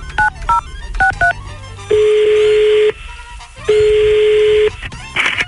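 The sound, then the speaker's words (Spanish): Telephone keypad tones sound as a number is dialed for a prank call. A few short dual-tone key beeps come first, then two long steady tones, each lasting about a second, all loud and without talking. “Deja de alegar y ponte a marcar. Vamos a marcarle, patrón.”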